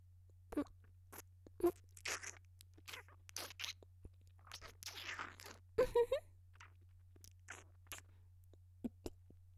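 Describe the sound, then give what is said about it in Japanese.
Biting and chewing peeled sweet fruit: many short, crisp crunches and wet chewing bursts come in an irregular rhythm. They are quiet and heard alone, without talk. “むいて、甘い実の部分をいただきまーす。”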